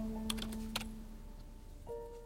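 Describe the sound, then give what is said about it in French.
A few quick, faint clicks of typing on a computer keyboard as a search is entered into Google, over a soft, steady background hum. “Je tape Sugar Daddy sur Google.”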